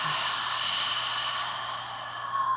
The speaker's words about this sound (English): and out through the mouth. Again, in, out.